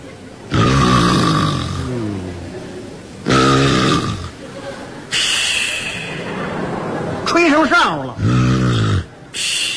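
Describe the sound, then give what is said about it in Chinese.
A voice imitates loud snoring: several drawn-out, buzzing snorts separated by short gaps, rough and throaty, with a few quicker, choppier snorts near the end. “同志们，由于我的呼噜声音太大了，所以我们家不用养猫就没有耗子”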